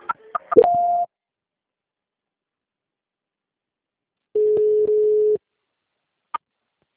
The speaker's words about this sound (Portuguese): Eu vou transferir porque a ligação caiu, tá bom? Tá. Transferência.